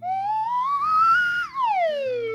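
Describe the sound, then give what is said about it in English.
A slide whistle played alone: one continuous clear tone glides smoothly upward, holds briefly near its peak, then slides down to a low pitch, with a faint steady hum underneath. “Like you want to play the slide whistle. Dude, play the slide whistle. Do it.”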